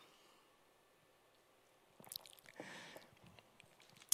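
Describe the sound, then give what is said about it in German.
A sip of a drink taken after near silence: a short, moist slurp followed by soft swallowing and mouth noises, ending in a sharp click. “Okay, ich trinke mal einen Schluck, beruhig mich, dann gehen wir zu Punkt 6.”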